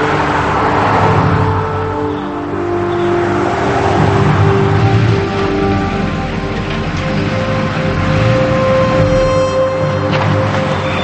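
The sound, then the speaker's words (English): A car engine hums steadily as the vehicle drives, a continuous low drone with gentle swells in loudness and no voices. “He parks, and she pulls in beside him and gets out of the car.”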